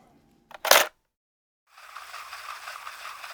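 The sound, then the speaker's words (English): A tape docking into place in a tape player makes a sharp, loud mechanical clunk with a short lead-in knock. Silence follows, then a steady sibilant hiss begins and continues. “In the silence, the sound of the tape docking into place is loud.”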